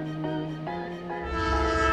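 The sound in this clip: A train horn sounds at a railway station, sustained harmonic tones that shift pitch a few times, with a low rumble building underneath in the second half.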